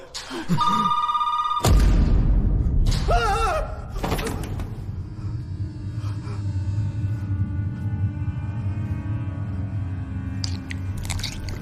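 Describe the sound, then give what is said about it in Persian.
A telephone rings in a short electronic trill at the start. A loud, sustained rumbling, crunching noise then takes over for the rest. “داره زنگ میزنه، تلفون داره زنگ میزنه.”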